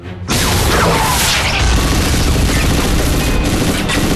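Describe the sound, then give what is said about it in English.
A blue fireball from a BFG weapon smashing into a wall: a loud, sudden boom bursts in after a brief silence, then gives way to a sustained, roaring crackle of debris and rumble that holds at full level to the end. “The blue fireball misses and smashes into the wall.”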